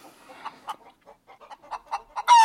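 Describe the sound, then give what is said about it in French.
Hens clucking in a cage where they are kept for laying: many short, mid-pitched clucks at uneven intervals, ending in a sudden louder, harsher burst. “J'ai un peu de peine pour ces poules. Pourquoi? Mais elles sont enfermées dans leur cage toute la journée. On dirait qu'elles sont seulement là pour pondre.”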